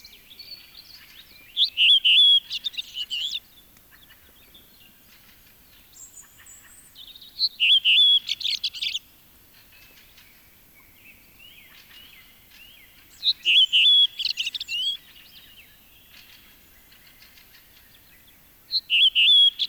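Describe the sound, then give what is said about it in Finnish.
A redwing sings four short, high, twittering phrases separated by long pauses, with faint softer chirps in the quiet gaps. “Punakylkirastas.”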